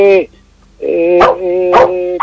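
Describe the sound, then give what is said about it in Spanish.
A dog barks and whines, a few sharp barks breaking out of drawn-out, tonal whimpering sounds, loud and close-sounding. “Pero aquí le está ladrando, porque algo está pidiendo, algo está avisando.”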